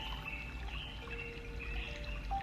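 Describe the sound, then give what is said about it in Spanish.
A clear, shallow water fountain gives a steady, even rush of flowing water throughout. Soft sustained tones hum underneath, and no one speaks. “Y al llegar tan cerca, puedes ver que es una fuente de agua.”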